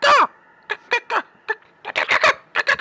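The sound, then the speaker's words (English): A voice imitates giant birds cawing in a tabletop fantasy game: one long squawk opens, followed by many short, harsh, throaty bursts in a quick, irregular rhythm. “Two gigantic birds come flying at you.”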